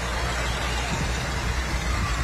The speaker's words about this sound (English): 1972, 1468 International. I'm like, wait a minute. Too many numbers. Yes. It's also a 1206 diesel, which you can smell.